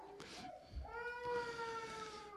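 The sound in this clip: A young child cries faintly among a church audience during a service: soft whimpers, then a thin, sustained wailing cry with a tonal quality.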